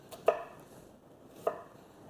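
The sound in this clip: A knife chops through onion in two separate sharp strikes about a second apart, faint and crisp against a quiet background.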